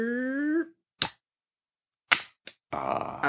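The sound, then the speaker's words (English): A can of Modern Times Black House beer cracked open: a brief vocal grunt, then a few sharp clicks and snaps, and finally a short fizzing hiss. “Now we are currently waiting to open up a new beer.”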